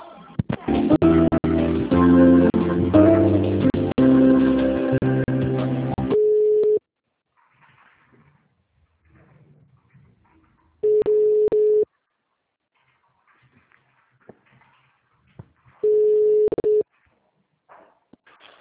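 A telephone line plays tones while a call to a hospital call centre is transferred: a brief electronic tune first, then a few steady, mid-pitched ringing tones separated by long stretches of near silence.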